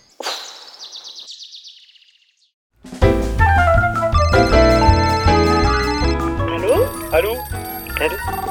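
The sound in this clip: A telephone rings with a bright electronic trill lasting about two seconds, followed by a brief silence and then loud music with drums and synthesizer that continues to the end.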